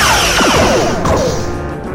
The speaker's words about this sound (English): Return fire. All weapons. Aye, aye, sir. Firing.